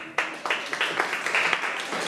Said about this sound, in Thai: ปรบมือ